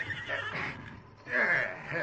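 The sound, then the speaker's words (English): Horses neigh inside a barn, two long, loud whinnies with a short pause between them, heard alone without talk. “Soon the horses were made comfortable in the barn.”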